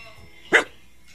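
A dog gives a single short, sharp bark, fairly loud over a quiet background hum.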